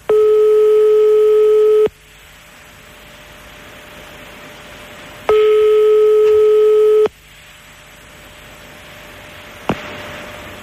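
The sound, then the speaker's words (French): Telephone ringback tones as a call is placed: two long, steady buzzing tones separated by a quiet stretch of line hiss, followed by a short click near the end. “Attention, l'appel. Attention, l'appel chez Johnny. Attention, attention, c'est parti.”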